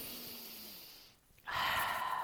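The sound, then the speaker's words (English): Faint deep breath during a guided relaxation exercise: a soft, airy breath fades, a brief hush follows, then a fuller, hissing breath swells and holds, with no talk. “let's take another deep breath and think of this”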